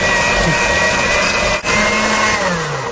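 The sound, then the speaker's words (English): An electric mixer beats softened butter in a kitchen with a loud, steady whirring motor hum that runs continuously, dipping briefly once near the middle before carrying on; no voices. “Or just put it on the counter in the morning and let it get softened while you work around the house. So we're going to beat this a little bit.”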